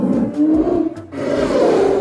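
A deep, growling roar from a bear, loud and rough, rumbling on for about two seconds with a brief dip partway through before swelling again.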